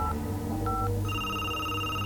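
Telephone tones after a number is dialed: a couple of brief electronic beeps, then a sustained, bright ringing tone that continues to the end over a low, steady hum.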